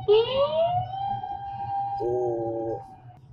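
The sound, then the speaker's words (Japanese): An ambulance siren entering an intersection: a loud wail sweeps upward and then holds a steady tone, followed by a brief fast warbling tone, over a low road rumble. “今救急車が交差点に入ってきてるのに通過しちゃったらごめんなさいねっていう、青信号だから と思って、スピード出してると危ないですね。”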